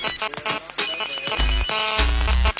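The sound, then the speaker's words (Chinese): A phone ringtone melody plays alone: a bright electronic tune of quick repeated notes, with bursts of deep bass pulses in its second half. “我的电话不得不响，就是在忙。OK OK， 我的电话为你而响”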